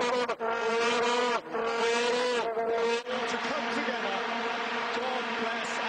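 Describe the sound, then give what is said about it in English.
Vuvuzelas blown by South African football fans in the stands at a World Cup match, a loud, continuous buzzing drone on one steady pitch with a few brief dips. “They're called vuvuzelas. They're instruments that South African fans blow in the stands, and they're supposedly extremely loud and extremely annoying.”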